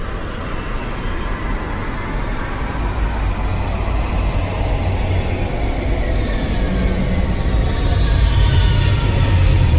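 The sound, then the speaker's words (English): Sound effect of spaceships landing: a loud, steady, broad roaring rumble that swells slightly toward the end, with no voices. “Spaceships are now landing on the surface.”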